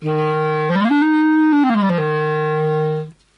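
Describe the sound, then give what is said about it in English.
A wooden B flat clarinet, about a metre long, plays a loud, reedy sustained low note, steps up to a higher held note, then slides back down through a few steps to the low note before stopping. “So, what I have here is I have a normal B flat clarinet. It's about a metre long, made of wood, and it sounds like this when you play it.”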